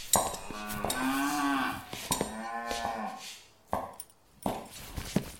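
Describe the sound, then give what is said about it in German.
Cattle mooing in a barn where a loose cow is being led back to its place: a few deep, drawn-out moos with rising and falling pitch, separated by short pauses, fairly loud and with no talk over them. “ich glaub, hier liegt noch ein Rind.”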